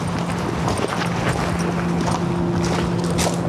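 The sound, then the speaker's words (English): Footsteps walking into ancient woodland along a path carpeted with fallen leaves, a steady soft crunching under a continuous wind-like rush. “So, shall we walk into the woods?”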